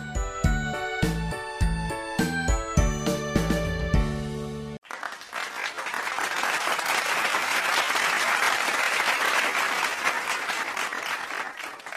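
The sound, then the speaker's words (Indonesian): An audience bursts into loud, sustained applause after a performance. The clapping is dense and steady, and it follows a passage of bright, tinkling, bell-like musical notes that stop abruptly just before it begins. “Penonton riuh bertepuk tangan selesai penampilan Citra.”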